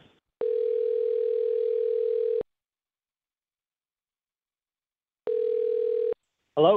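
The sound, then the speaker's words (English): Telephone ringback tone while phoning someone: two long, steady, mid-pitched tones separated by a long silence, with a voice briefly starting to speak at the very end. “Well, let us call Jack and see if we can get some answers.”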